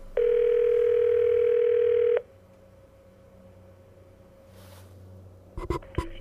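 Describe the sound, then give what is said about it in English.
A telephone dial tone sounds while a call is being placed: a loud, steady, even tone for about two seconds, then a much fainter continuing tone, then a few quick dialing beeps near the end. “let's call Homer”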